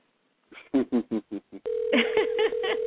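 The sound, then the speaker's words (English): Telephone keypad tones as a number is dialed: a quick run of short, evenly spaced beeps, then a steady line tone with further tones sounding over it. “So I'm dialing back up to see if I got it right this time.”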